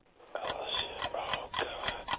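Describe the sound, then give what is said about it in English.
A quiz countdown timer ticks in a steady, evenly spaced rhythm of crisp, bright clicks over a low background hum, quiet and without talk. “there's the timer”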